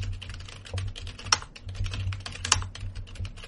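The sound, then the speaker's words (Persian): Keys clatter on a computer keyboard as someone types and presses Enter, a soft, quick run of clicks with a couple of sharper, louder presses standing out in the middle. “خب بازش میکنیم، مینویسیم، اینتر میزنه میره خط بعد”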